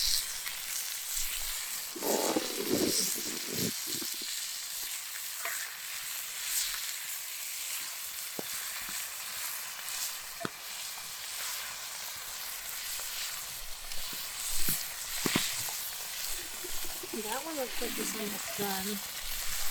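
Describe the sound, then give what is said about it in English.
Bacon frying in a pan gives a steady, bright sizzle that runs throughout, dotted with sharper crackles and pops. A brief voice rises over the hiss near the end. “Oh yeah, that bacon's a little brown. Oh, this one looks a little brown. This one's a little brown. Keep it in its bacon.”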